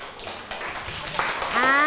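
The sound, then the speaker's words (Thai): Classmates clap for a student in a classroom, a dense, irregular patter of hand claps that fills most of the moment before a voice begins speaking at the end. “ทุกคนปรบมือให้ปิ่นหน่อยค่ะ”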